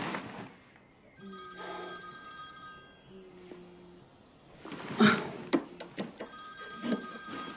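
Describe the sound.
A telephone ringing in a few repeated bright tonal bursts with short gaps between them, fairly faint, with some sharp knocks near the end.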